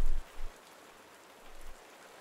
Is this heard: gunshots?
no

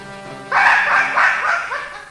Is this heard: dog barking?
yes

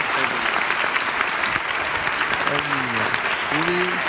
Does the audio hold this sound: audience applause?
yes

